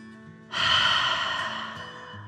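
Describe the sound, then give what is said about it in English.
A guided deep breath during a breathing exercise: one long, loud, airy rush of air lasts nearly two seconds and slowly fades, over faint steady tones. “Deep breath in and out.”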